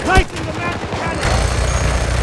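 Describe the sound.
Rapid gunfire from a weapon in a video game firefight, a quick run of sharp repeated shots with heavier low booms joining later, while a voice speaks over the start.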